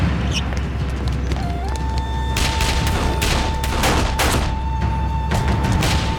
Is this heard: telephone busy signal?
no